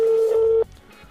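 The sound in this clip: A single steady telephone tone, heard as a call is being placed, holds one mid pitch for about half a second and then cuts off abruptly. Only faint background noise follows.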